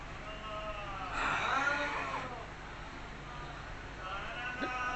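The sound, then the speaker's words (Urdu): A deep breath is pushed out through the mouth into a hand cupped over it. It makes one soft, breathy rush of about a second over a steady low background, with a brief faint puff near the end. “اب یہ منہ پر ہاتھ رکھ کر آپ کو سانس منہ سے نکالنا ہے, بھلے ناک سے بھی تھوڑی ہوا نکلے گی زیادہ تر, جیسے میں پہلے پریکٹیکل کر کے بتا دوں آپ کو.”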